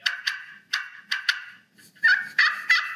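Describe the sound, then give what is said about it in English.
Turkey yelps made on a slate friction call, struck with a striker: a series of sharp, raspy, rhythmic notes in quick bursts, loud and alone with no talk. “So it's a friction call. So I sand this way and I'm going to strike this way.”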